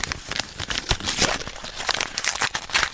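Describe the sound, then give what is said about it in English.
Paper crinkles and tears as an envelope is opened, with many crisp rustling and ripping bursts of uneven loudness running through the whole moment. “a very good friend of ours who's gone to the opening of an envelope and she put it up on TikTok. Do you want to hear it? Oh, I can't wait. Here's what it sounds like.”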